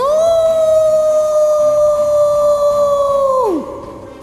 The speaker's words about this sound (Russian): Короткая пауза, и свод тоннеля содрогнулся от волчьего воя. Вой был такой громкий